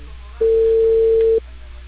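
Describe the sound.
A telephone ringing tone sounds during a call. It is one steady, mid-pitched tone about a second long, with a low hum running beneath it.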